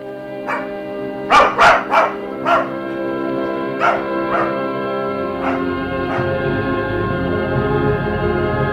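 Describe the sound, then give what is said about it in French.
A dog barks in a series of sharp barks, loudest and most rapid early on, followed by several softer, more spaced barks over a steady background. “Oh, le beau chien, tu en as une bonne figure de brave toutou.”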